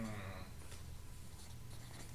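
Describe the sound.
A pen scratches faintly across paper as someone writes an answer in a guessing game, with soft, continuous strokes over a low background hum.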